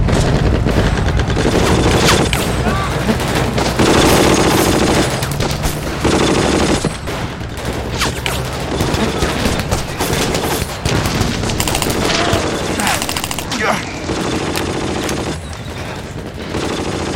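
Gunfire in a firefight, with dense bursts of automatic fire, single shots and occasional booms. It stays loud and continuous, with only brief lulls.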